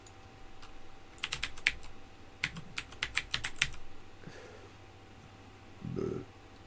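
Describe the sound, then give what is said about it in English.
Typing on a computer keyboard during a search for a folder on the computer: a quick burst of many crisp keystroke clicks, then a quiet stretch and a soft low thump near the end. “I think it's gonna find it based on this thing that I just typed.”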